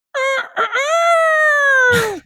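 A rooster gives one loud crow: two short clipped notes, then a long sustained ringing note whose pitch drops at the end, finishing with a brief noisy burst.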